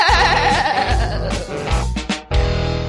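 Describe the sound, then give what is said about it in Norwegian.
Sheep-like bleating sung as the vocal of an American children's rock song: loud, wavering, quavering bleats over dense music with heavy low thumps, with a brief dip in loudness near the end. “En syngende sau kanskje ikke det du hører mest I norsk på norsk, men her en rockesau fra Amerika.”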